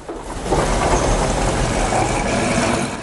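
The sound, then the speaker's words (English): A van's engine rumbles as it drives through a set of metal double doors. The low mechanical drone rises in quickly at the start and holds loud and steady throughout. “The van drives through, and the man promptly closes the doors again and locks them.”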